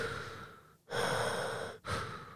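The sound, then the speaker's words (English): A voice imitates heavy mechanical mask breathing: a few slow, rasping, hissing breaths, each swelling and fading with short gaps between, heard alone. “Darth Vader, is that you?”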